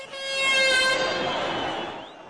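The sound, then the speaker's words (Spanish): A vendor sounds a horn to get attention amid a crowd in stadium stands. It gives one sustained, bright tone rich in harmonics over a loud, steady crowd roar that fades slightly at the end. “Toca una de sus bocinas para llamar su atención, pero él no se percata, así que vuelve a tocar.”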